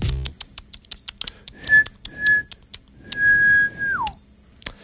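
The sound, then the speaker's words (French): A person whistles an imitation of a mole's noise: a few clear, high whistled notes, the last held longest before it slides down in pitch, set among quick dry clicks and taps. “est-ce que tu siffles avec moi? Non. Je fais mon bruit de taupe.”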